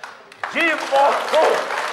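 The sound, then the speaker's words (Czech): Audience applause at a live comedy performance, clapping that swells in after a brief pause while voices shout and talk loudly over it. “A já si myslím, že mu všichni zatleskáme.”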